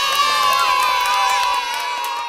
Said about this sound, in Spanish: Y ahora el aplauso más grande de todos, para ti.